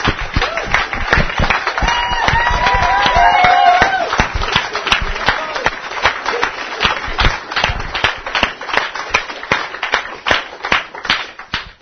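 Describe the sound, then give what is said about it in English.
Audience applause for the speakers at an event, a thick burst of clapping at first that thins into scattered, sharp individual claps continuing to the end. “So once again, let's give it up for all the speakers and everything they've done for us.”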